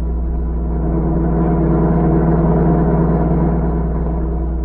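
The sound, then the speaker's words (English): A car engine runs with a steady, loud, low rumble that holds an even drone from start to finish with no other sounds. “You have plenty of gasoline? Yes, the tank is full. Then we should be at the border within an hour. Drive carefully till you're out of the city.”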